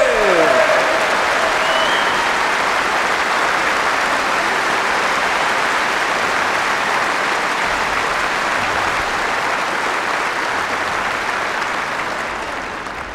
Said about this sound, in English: Give them an enormous applause.